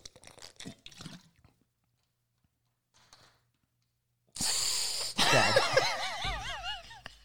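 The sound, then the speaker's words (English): Someone gargles a drink with a loud bubbling, wavering gurgle lasting close to three seconds. A few faint, brief sounds and a quiet pause come first. “No, you can't gargle it like that and then act like, ooh, that was harsh going down.”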